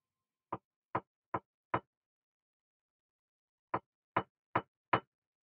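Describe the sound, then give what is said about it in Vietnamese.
Hard knocking on the shared wall between the men's and women's toilets: eight sharp, loud knocks in two groups of four, with a long silent pause between the groups. “Thế rồi đột nhiên tiếng gõ cửa cộc cộc vang lên.”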